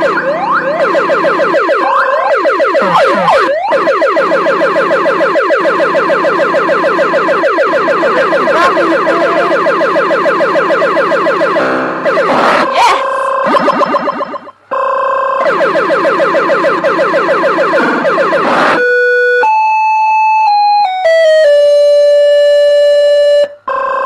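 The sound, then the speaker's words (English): A loud electronic warbling siren sounds in a video game as the player nears running out, oscillating continuously with a brief pause before ending in a series of stepped electronic beeps. “Basically, the siren means I'm almost out of line.”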